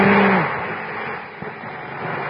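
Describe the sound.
A car drives over Gemini Bridge, heard as a steady, broad engine and road rumble with a brief tonal sound at the very start, holding fairly even before easing slightly and rising again.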